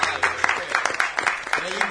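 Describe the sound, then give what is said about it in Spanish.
Audience applause, a dense patter of claps that runs through the whole clip with some voices mixed in. “¡Aplausos!”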